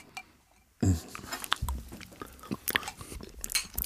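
Chewing and biting into a schnitzel: after a short quiet moment, a loud first bite starts many irregular, crisp crunches and moist chewing sounds.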